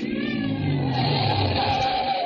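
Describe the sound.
A car drives on at night toward a bend in the road, giving off a steady, unbroken rumble of engine and road noise. The sound holds at an even level throughout, with no voices.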